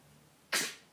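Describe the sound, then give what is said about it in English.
A single sharp sneeze in a dusty setting bursts out abruptly after near silence, then trails off quickly. “Ah, see, you're sneezing on my hair. It's too dusty.”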